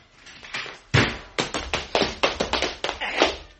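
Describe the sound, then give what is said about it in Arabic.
A door is unlocked with a spare key and pushed open in an emergency: a run of many sharp, hard clacks and knocks, fairly loud and close together, quickening toward the end with no voices. “طبعا عندكم مفتاح احتياطي. المفتاح موجود يا حضر الضابط. افتح الباب بسرعه.”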